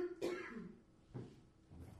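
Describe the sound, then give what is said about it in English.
A person coughs in three short, harsh bursts, the first the strongest, separated by quieter breathy pauses, with no speech. “If I could stop coughing. Yeah, it's so annoying, too.”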